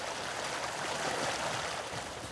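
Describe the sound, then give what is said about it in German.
Water runs from one carp pond down into the next lower pond, a soft, steady rushing trickle that continues without a break. “Die Weiher sind miteinander verbunden. Das Wasser fließt in den nächsttieferen.”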